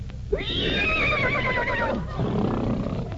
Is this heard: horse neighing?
yes